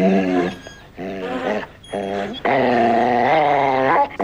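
A dog growls and snarls as it attacks a man, biting and holding him. A run of loud, harsh, pitched growls with short gaps builds into a longer, sustained snarl near the end, with no voices.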